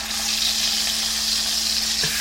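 Tilapia fillets fry in a pan with a steady, bright sizzle and crackle that holds evenly throughout over a faint constant low hum.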